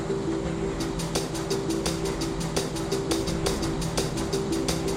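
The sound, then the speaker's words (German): An ICE high-speed train runs on after a short stop, with a steady low rumble and a fast, regular clicking of wheels over the track. “Der ICE nimmt wieder Fahrt auf.”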